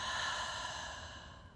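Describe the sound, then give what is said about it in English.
A slow, deep breath in a guided breathing exercise: a single soft, airy exhale that gradually fades over its length, with no talking. “taking a nice, big, deep breath in through our nose, and slowly exhaling out of our mouth.”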